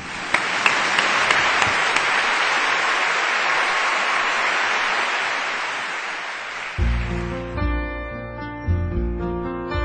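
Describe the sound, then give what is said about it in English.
Warm audience applause welcoming a performer, a dense and steady roar of clapping for about seven seconds. It eases off as instrumental music with sustained tones comes in beneath it. “Ladies and gentlemen, please welcome Kerry Walsh with a very, very warm round of applause.”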